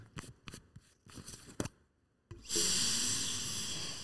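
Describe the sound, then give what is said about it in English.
A long, strong sniff is drawn through a Thai compound herbal nasal inhaler. It is preceded by a few short, soft handling and rustling sounds, and the airy sniff holds steady to the end. “Should we both inhale some Hong Thai yes, right now?”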